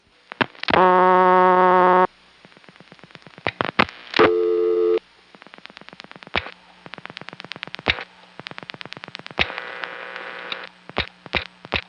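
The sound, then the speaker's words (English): A telephone tone sounds on a call placed between Annapolis exchanges: two long steady buzzing tones, with many sharp switching clicks between and after them over a faint hum. “When dialed from the other Annapolis office, which is 757 and 956, it simply gave me a busy tone.”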